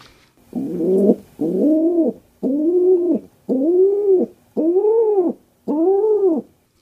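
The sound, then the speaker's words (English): A rock pigeon coos six times, each a low, mellow, rounded hoot of steady length, in an even rhythm with short pauses between, heard alone. “This is a rock dove or a regular pigeon”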